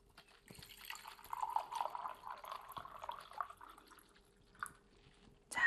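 Hot water is poured into a cup holding iron for dyeing, making a faint, thin trickling stream that runs steadily for several seconds before tapering off.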